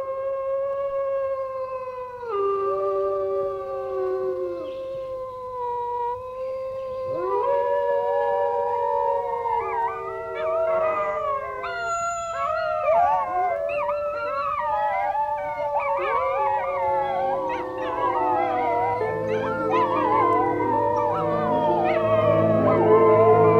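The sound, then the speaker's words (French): Wolves howling in a chorus, long wavering tones overlapping as more voices join in, growing denser and somewhat louder toward the end. “voici le langage des loups et des animaux en général.”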